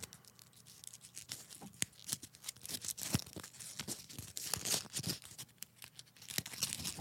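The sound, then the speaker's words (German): Paper crinkles and rustles as a slip is pulled from beneath others in a container and unfolded, giving many soft irregular crackles and small tearing sounds, faint and continuous, with no talk. “Ich greife mal ein bisschen weiter rein und ziehe von unten was raus. Okay, warte, ich äh, hole den Zettel nach vorne ins Mikro.”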